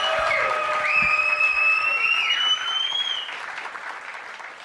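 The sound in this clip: Applause and cheering from a comedy audience at the close of a stand-up set. Steady clapping runs under high gliding tones for about three seconds, then drops and tapers off.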